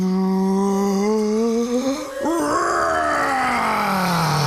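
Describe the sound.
A voice imitates a dragon breathing fire with a long, loud groaning roar. The roar breaks briefly near the middle, then carries on and sinks in pitch toward the end.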